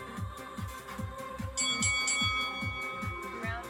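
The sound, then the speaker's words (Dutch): A brief, bright bell rings to start a boxing round during a punching-bag workout. It sounds out over a steady, thumping music beat that keeps going underneath. “Oké, je rondetijd, de bel gaat zo en dan ga je beginnen.”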